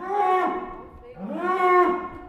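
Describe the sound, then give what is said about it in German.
Bulls crowded on slatted floors in a barn give two long, deep moos, one after the other. The second moo starts low and climbs into a sustained, resonant call. “Im Stall stehen die Bullen dicht gedrängt auf Spaltböden. Das heißt, Kot und Urin fallen direkt in den Güllekeller. Die Tiere rangeln ein wenig, sie muhen.”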